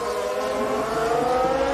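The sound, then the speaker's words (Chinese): Racing car engine at full throttle coming out of turn 19 during a circuit race, a loud, continuous high whine that holds steady throughout, with no voices. “这十九弯过来，这边的全油门。”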